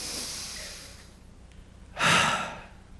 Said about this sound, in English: Feel a breath. Take a breath in.